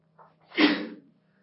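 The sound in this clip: A single sneeze during a lesson on Arabic grammar: a faint short intake of breath, then one sharp burst that fades quickly, heard alone.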